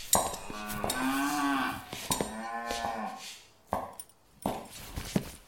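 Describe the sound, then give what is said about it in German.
Cattle lowing in a barn where a cow had broken loose. Two drawn-out, harmonic moos rise and fall in pitch, followed by a few sharp knocks or clatters. “ich glaube, hier liegt noch ein Rind.”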